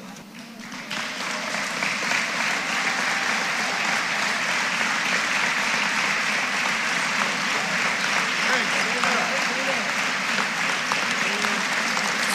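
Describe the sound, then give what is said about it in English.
Standing ovation for Hall of Fame inductees, the 1971 Ohio boys Class A state champions, walking onto the court: dense, steady clapping from a large crowd that swells after a quieter start and holds throughout. “Standing ovation here for all the inductees who are walking in at this time onto the courts.”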